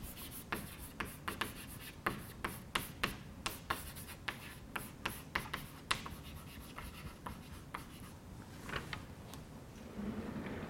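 Handwriting while a physics formula is written out: many short, scratchy strokes and taps in an uneven rhythm, fairly faint and heard alone without talk.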